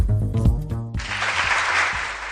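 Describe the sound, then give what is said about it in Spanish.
Applause greets the new tourism spot for Holy Week in Medina de Rioseco. A brief tonal sound comes first, then a broad, steady wash of clapping holds to the end. “Y este aplauso porque la Semana Santa de Medina de Río Seco, declarada fiesta de interés turístico internacional y bien de interés cultural de carácter inmaterial, cuenta con un nuevo spot turístico”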